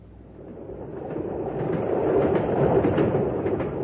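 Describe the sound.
A passenger train bound for London runs on its rails with a continuous rumbling roar and faint rhythmic clatter. The sound swells gradually louder and then holds steady, with no voices.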